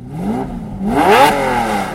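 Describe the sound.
A Lamborghini sports car accelerates with a revving engine note that swells and dips in waves, building to its loudest roughly midway before easing slightly.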